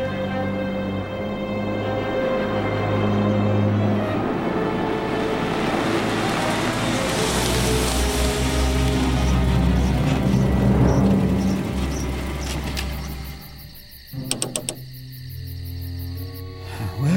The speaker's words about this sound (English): Hollis Berry, a nervous little man in a gray sedan, heads down the last 50 yards of a gravel driveway and stops in front of a secluded, two-story mountain retreat